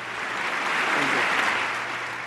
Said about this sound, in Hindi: तालियों का सिलसिला तभी शुरू हो गया जब उन्हें भाषण देने के लिए आमंत्रित किया गया।